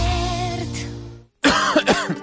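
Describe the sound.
Coughing: a few harsh, rough bursts come after a short silence. A fading tail of sustained musical tones plays before the silence.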